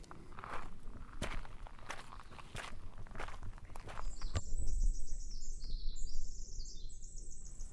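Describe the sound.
Footsteps of a hiker on a remote forest trail heading toward a lookout, many steady crunching steps that keep an even pace, with birds chirping in the second half.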